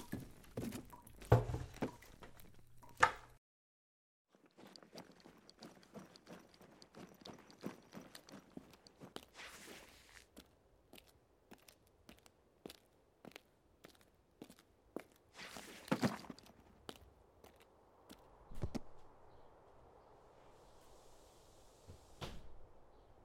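Footsteps of someone walking for hours over snowy ground, many sharp, evenly spaced steps with a few heavier thuds, fairly faint, broken by a short silent pause early on.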